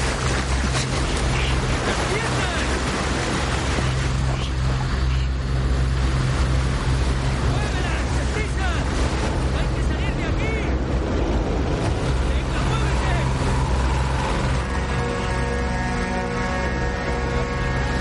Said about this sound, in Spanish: Un barco va hacia ellos.